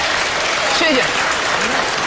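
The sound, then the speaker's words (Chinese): Applause from a studio audience at a televised talk show, a dense and steady clatter of many hands that stays loud and unbroken for the whole stretch. “谢谢您热情的掌声”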